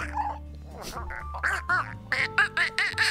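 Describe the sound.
A person's voice imitates Donald Duck's quacking, producing a quick string of raspy, nasal, garbled squawks that grow more clipped and choppy toward the end.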